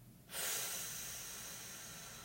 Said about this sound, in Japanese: 一度体の中の空気全部吐き出します吐き切るはいでは笑顔でゆっくり吸い込みますたっぷり吸って吐きます